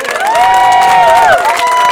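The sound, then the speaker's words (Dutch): A crowd cheering and applauding at the reopening of a walking path, with loud drawn-out whoops and shouts riding over a dense, steady bed of clapping. “Dus ik wil graag nog een keer een echt groot applaus voor deze man.”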